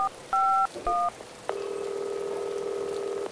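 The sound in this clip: Telephone keypad tones as a number is dialed: three short dual-tone beeps in quick succession, then a long, steady, loud tone held for nearly two seconds over faint background hiss.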